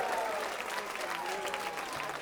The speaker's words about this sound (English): maybe another nice round of applause for Missy Raines and the new hip.